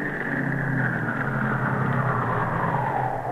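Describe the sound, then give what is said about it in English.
A taxi cab's engine drones steadily as the car arrives, a continuous low rumble that holds the same loudness throughout, with no voices. “Hey, look what's coming here. A taxi. Oh, golly, so it is. And empty, too.”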